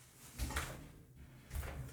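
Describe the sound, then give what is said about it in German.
A door being closed, heard as two soft, muffled bumps about a second apart, each a short knock with a brief rustle around it against a quiet background. “So, ich musste mal gerade die Tür zumachen.”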